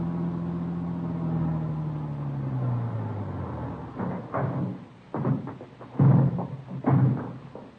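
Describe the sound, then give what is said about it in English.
A car drives along, its engine drone sliding lower in pitch at first, then giving way to irregular louder surges and rumbles. “1 p.m. Tuesday, we drove out to talk to him.”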